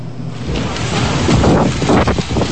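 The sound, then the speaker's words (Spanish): Strong gusts of Typhoon Babi in northern Taiwan, with torrential rain: a loud, continuous roaring rush of wind buffeting the microphone, surging slightly in the middle, with no voices. “Lluvias torrenciales, fuertes ráfagas de viento y paraguas doblados por el temporal. El tifón Babi azotó el sábado el norte de Taiwán antes de continuar su trayectoria hacia la costa oriental de China”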